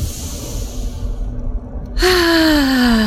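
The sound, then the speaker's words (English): A deep breath taken during a guided gratitude exercise: a long, soft airy inhale, then a voiced sighing exhale that starts abruptly and slowly drifts down in pitch. “So taking that deep breath.”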